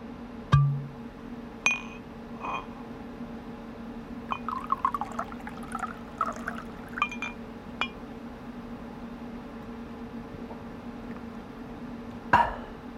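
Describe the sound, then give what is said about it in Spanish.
A celebratory drink is poured into a glass with a quiet, trickling fill in the middle stretch. A few bright glass clinks ring out alone near the start and again at the end. “Se sirve una copa para celebrarlo.”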